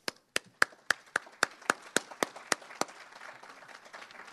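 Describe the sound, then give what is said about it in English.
Audience applause for a panel: a steady run of loud, evenly spaced claps, then softer, more scattered clapping that thins out toward the end. “And let's give them a big hand.”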